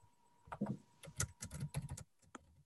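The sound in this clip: Fingers type on a computer keyboard, tapping out quick irregular clusters of keystrokes with short pauses between bursts, fairly faint and with no talk.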